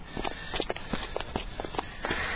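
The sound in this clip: Footsteps of someone walking for exercise, many steady steps in an even rhythm, with soft scuffs between the footfalls and no talking.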